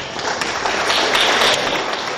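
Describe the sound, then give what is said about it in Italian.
An audience applauds, a dense, steady wash of clapping that holds at an even loudness for the whole stretch with no voices over it. “Rieccoci sugli applausi anche qui. Ok, fine applausi? Perfetto. Ok, aspettavo la fine degli applausi.”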